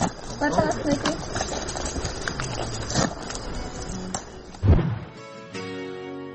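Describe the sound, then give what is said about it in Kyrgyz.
Hoofbeats of an ambling horse setting off along a village road in Kyzyl-Beyit, soft irregular thuds running under continuous talk, with a louder knock near the end. “Мындан аркы барчу жоргону мына тандап алдым мен. Азыр зыңылдаган бойдон жөнөйбүз.”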